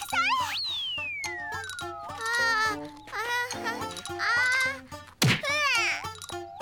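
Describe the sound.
A ball hit on a serve gives one sharp, loud thwack near the end, set among chirpy, gliding synthetic tones and high voices.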